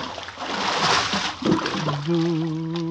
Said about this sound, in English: Hey, why you're pushing me overboard?